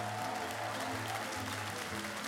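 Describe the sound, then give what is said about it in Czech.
An excited crowd welcoming visiting magicians cheers and claps, a dense, steady roar of applause and voices that stays loud and unbroken from start to end. “Nadšený dav ještě zesílil.”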